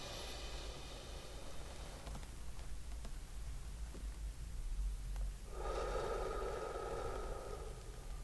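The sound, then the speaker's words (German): Faint, slow paced breathing is heard alone, with long airy breaths separated by a quieter pause, as in a breath-counting exercise. “3 Sekunden einatmen, 3 Sekunden Luft anhalten, 3 Sekunden ausatmen. Also so.”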